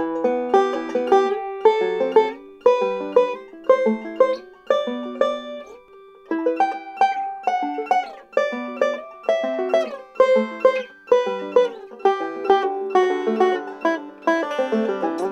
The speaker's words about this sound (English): I love this certain type of chord voicing on the banjo on the first, third, and fourth strings. Really cool melodic sound. The voicing sound like this as you kind of climb up the neck of the banjo.